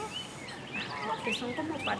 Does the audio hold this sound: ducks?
yes